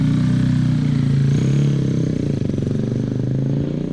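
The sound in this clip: A motorcycle sets off on a race circuit, its engine a loud, steady low drone with a rapid pulsing beat that holds fairly even and eases slightly toward the end.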